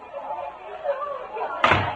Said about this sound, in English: as Jim Anderson steps through the front door